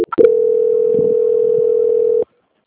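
Telephone call-transfer tone: a single steady, loud beep holds for about two seconds, then cuts off abruptly into silence.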